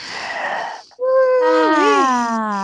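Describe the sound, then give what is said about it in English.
Several people take a collective breath together: a long, rushing, breathy inhale, then a loud, sustained voiced exhale in which overlapping sighing tones waver and cross in pitch. “let's all take a collective breath. 1, 2, 3, go.”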